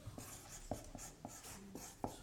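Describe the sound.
Faint scratching of a word being written by hand, heard as a few short, dry strokes with small gaps between them.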